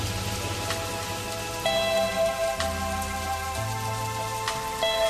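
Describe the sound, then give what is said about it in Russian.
Heavy rain pouring down on a city square, a dense steady hiss with scattered sharp drop ticks, layered under sustained low musical tones that shift pitch a few times. “На площади Альма дождь хлынул сильнее”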